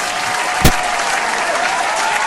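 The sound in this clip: Audience applause from an appreciative crowd: steady, dense clapping throughout, with one sharper, louder clap standing out near the middle.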